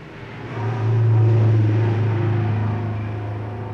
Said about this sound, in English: where are those trucks going? To those oil fields up there?